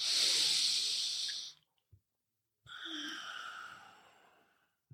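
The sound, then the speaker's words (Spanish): Slow breathing in through the nose with the mouth closed, part of a breathing exercise. Two long, soft, hissing breaths are separated by a short silence, both faint and without talk. “Inhalas por la nariz, boca cerrada al inhalar. Puedes exhalar por la boca o por la nariz pero inhala siempre por la nariz.”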